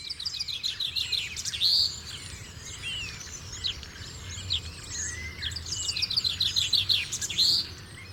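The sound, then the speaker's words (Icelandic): A dawn chorus of many birds sings together in bright, high chirps and trills. The singing swells into louder bursts early on and again near the end, over a faint low rumble. “Við þessi ákveðnu birtuskilyrði byrjar fuglakórinn að syngja.”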